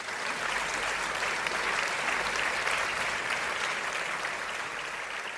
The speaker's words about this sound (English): please rise to your feet and welcome all the way from Boulder, Colorado, the Sherlock Holmes of medicine, Dr. Jill Carnahan